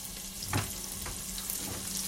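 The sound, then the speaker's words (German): Onions fry in hot fat with cumin, giving a steady, even sizzle with a couple of soft stirring knocks. “Und jetzt ist der Fett heiß, ich habe die Kreuzkümmel drin. Zunächst kommt das, was man typisch auch in der europäischen Küche kennt, Zwiebeln rein.”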